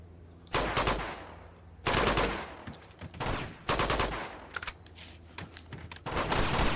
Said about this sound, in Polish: Co tam strzela?